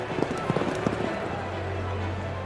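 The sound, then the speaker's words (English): Hoofbeats of racehorses galloping off at the start of a race, with spectators on horseback riding behind them: a few sharp hoof thuds in the first second, then a steady low rumble. “As the starter lowered his flag, the horses raced off, with the spectators who'd ridden out to see the start riding along behind them. And the race starts”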